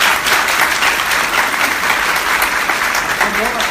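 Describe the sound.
Audience applause honoring a top leader at a gathering: dense, steady clapping that holds at an even, loud level from start to finish.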